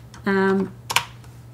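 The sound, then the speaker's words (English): Typing a part number on a computer keyboard: a brief voiced hum followed by a few quick, crisp keystroke clicks. “So go to DigiKey and we type that in”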